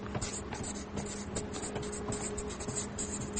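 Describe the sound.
Pen strokes scratch across paper while someone writes and draws, a steady run of dry, rustling scrapes with short pauses between strokes and a faint low hum underneath.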